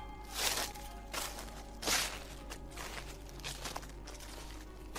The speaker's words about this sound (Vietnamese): Tiếng loạt xoạt mỗi lúc một gần.